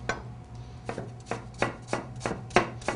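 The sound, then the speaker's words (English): Knife chopping through a red onion: a steady, even series of crisp cutting strikes, about eight in all, each a short sharp tap over a faint low hum, with no talking. “We're going to take our red onion, peel it like so, and we're going to do the same thing. We're going to slice it down the middle”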